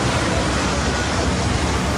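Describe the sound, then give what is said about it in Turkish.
Floodwater rushes through a street in Sarıyer, Istanbul, during a flood that swept vehicles along and filled buses. A loud, steady roar of churning water carries on without a break. “Otobüs iyice su dolmaya başladı. İçeride mahsur kalan yolcular acil durum penceresinden çıkıp otobüsün üstünde yardım bekledi. Aynı noktada sel suyu araçları sürükledi.”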